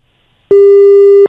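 Telephone busy tone after a call is cut off: a single steady, pure electronic beep of under a second, loud and even, starting and stopping abruptly with silence before it.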